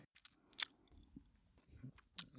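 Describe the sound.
Faint chewing of edible insects seasoned with garlic and herbs, with a few crisp, sharp crunches amid softer, irregular mastication.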